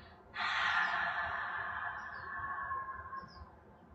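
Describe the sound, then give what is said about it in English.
One long, deep exhale through an open mouth, a breathy rush that starts strong and slowly fades over several seconds, with no talking. “Take a deep breath in, open the mouth, drop the jaw, exhale out the mouth, breath of release.”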